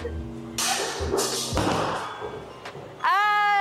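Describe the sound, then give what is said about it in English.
A left-handed first-timer throws a bowling ball down the lane at a bowling alley, giving a few heavy thumps followed by a rumbling roll, with a voice breaking in near the end. “Ayan guys, so ito try natin yung first try natin here sa bowling. Kaliwete ako, by the way. So, ito try natin to. Left-handed.”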